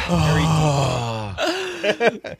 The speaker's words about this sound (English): you can exhale too. Yeah, into the mic.